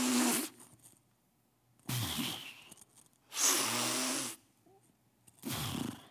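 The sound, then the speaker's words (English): A person imitates heavy breathing with four loud, rasping, breathy bursts, each under a second long and separated by short quiet gaps. “where they go and literally lay on graves and they breathe like this.”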